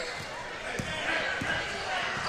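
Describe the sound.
A basketball is dribbled on the court during a women's game, giving a few dull bounces spaced apart over a wash of background noise and voices.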